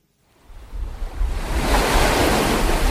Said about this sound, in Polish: Tak brzmi Ocean Południowy.